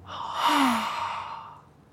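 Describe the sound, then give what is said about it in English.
A slow breath out through the mouth during a calming belly-breathing exercise comes as a single soft, breathy, sigh-like exhale. It swells gently and then fades over about two seconds. “So let's breathe slowly in through our noses, then slowly breathe out through our mouths.”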